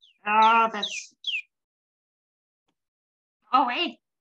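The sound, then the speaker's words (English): Small chicken clucking, a few short throaty calls with high chirping peeps, then silence before one more brief cluck. “This is the little chicken. It's always a little bit stressy. Always curious and wants to join everything, but you're too small chicken.”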